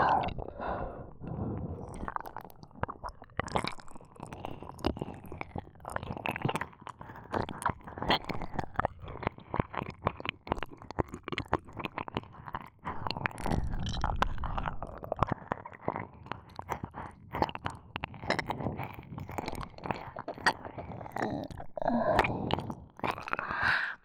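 Wet ASMR mouth sounds imitating the eating of an ear: dense, continuous smacking, chewing and crunchy clicks with soft breathy noise, steady and moderately loud throughout, no talking.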